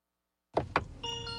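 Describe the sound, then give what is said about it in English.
A car's cheery welcome tune plays as someone gets in. Two quick clunks come first, then a soft, bright electronic chime of steady tones. “It plays a little tune every time you get in. It's very cheery. Very cheery. It's a little welcome to your car.”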